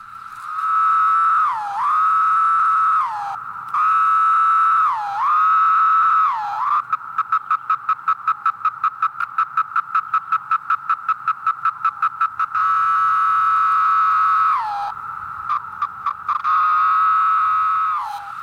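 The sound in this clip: A chorus of 17-year periodical cicadas, black-bodied and red-eyed, makes a loud, steady buzzing drone. Several calls end in a downward slur, and a long stretch of rapid, even pulsing sits in the middle. No voices are heard.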